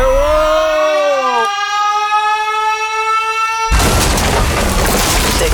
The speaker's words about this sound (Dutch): Dat is namelijk als je de caloriebom hoort ontploffen op de radio.